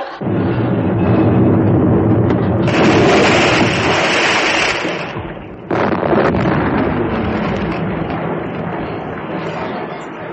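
Gunfire booms out on command as a loud, sustained roaring blast. A second heavy burst strikes about halfway through and then slowly fades away.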